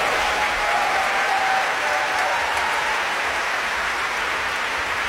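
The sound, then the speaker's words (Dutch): Audience applause fills a concert hall after a stage performance by clowns and a dancer, a dense, steady wash of many hands clapping at even loudness throughout, with no voices standing out. “En applaus zeker natuurlijk voor Michael Hel.”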